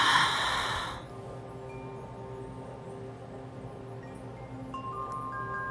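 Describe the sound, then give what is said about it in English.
Breathing during a guided exercise, in through the nose and out through the mouth: one long, breathy exhale at the start, then quiet with only a faint low hum. “Now let's take another cycle of breath here. Inhale through your nose and exhale through your mouth.”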